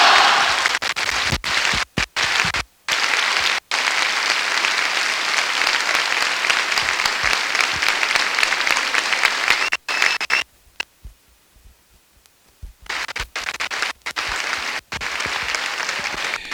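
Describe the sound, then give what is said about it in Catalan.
Crowd applauding after a speech by the mayor of Sitges, a long, dense stretch of steady clapping with brief dropouts and a quieter patch near the end before the clapping swells again. “Aplaudiments”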